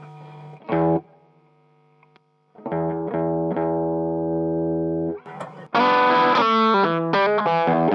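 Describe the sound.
An electric guitar plays through an overdrive pedal with its front boost switched off, routed via a GigRig pedal switcher. A short distorted stab comes first, then a long sustained chord, then a louder burst of brighter, gritty strummed chords.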